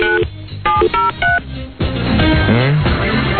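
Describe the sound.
Touch-tone telephone dialing while calling contest winners: a quick series of short, crisp keypad beeps, followed by a denser run of overlapping phone-line tones.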